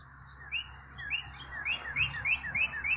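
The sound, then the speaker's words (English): Birdsong from two male cardinals calling to each other near a tube feeder, with a chipping sparrow also present: many bright, rising whistled chirps repeat in a steady, quickening series over a low background hum. “There's two male cardinals defining their territory, calling out to each other while I watch the chipping sparrow just go away at the tube feeder. Occasional mourning dove chiming in.”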